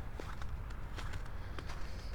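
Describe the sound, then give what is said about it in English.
Soft footsteps on a boardwalk leading into a lagoon, a few quiet, muffled steps over a low, steady background. “All right, now let's walk into the main part of the lagoon here.”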